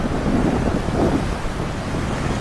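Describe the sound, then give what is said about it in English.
Strong, unseasonal wind blows continuously, a dense, rough roar buffeting the microphone with no pauses and no voices. “Strong wind's really helping. It's just giving them enough lift to take off and to carry on flying.”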